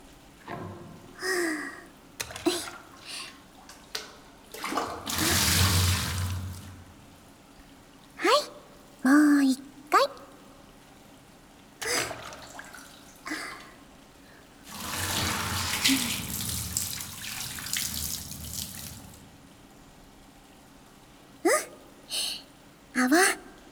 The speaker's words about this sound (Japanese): さあ、流してくわよ。目はつぶったままね。